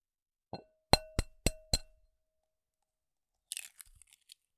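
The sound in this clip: An egg cracked against a bowl's rim while whisking eggs and granulated sugar for a cake batter: one soft tap, then four sharp, bright knocks in quick succession, followed after a pause by a few faint crackles of shell.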